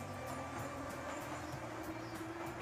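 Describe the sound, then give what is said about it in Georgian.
Subway train in Boston's old underground metro, a steady low rumble with faint, regular clicks running through it, fairly quiet throughout. “ახლა კი მეტროში. მე უბრალოდ ფსკერზე ვარ, სულ უფრო ქვევით და ქვევით ჩავდივარ.”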